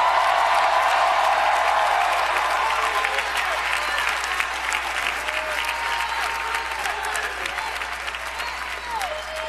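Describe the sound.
A church audience applauds and cheers after a call from the preacher. Heavy clapping mixes with shouts and whoops, starting strong and gradually easing toward the end.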